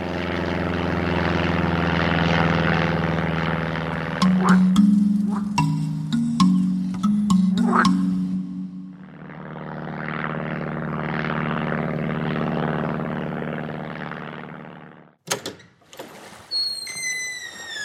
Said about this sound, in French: Allez, saute dans mon engin. Attention, décollage!